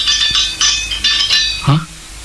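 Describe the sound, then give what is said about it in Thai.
Empty milk cans tied to a line as an alarm clank together, a few bright metallic rattles in quick succession, loud and ringing. “เสียงกระป๋องนมที่เรามาผูกทำเป็นสัญญาณดังขึ้นแล้วนี่ก็แสดงว่าต้องมีอะไรกระทบสายสัญญาณที่เราโยงเอาไว้สินะ”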